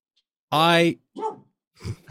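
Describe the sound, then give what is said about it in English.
A dog barks in three bursts: a long, loud, strongly harmonic bark followed by two shorter, weaker ones. “I had forgotten that the dog who is actively barking right now was underneath me.”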